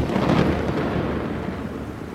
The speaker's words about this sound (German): Das Gewitter hat sich verzogen.